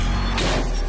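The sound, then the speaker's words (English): A car's side mirror strikes a pillar in an underground parking garage: a brief, bright crunch about a third of the way in, over a steady rumble of noise. “That's the sound of a car mirror meeting an underground parking pillar.”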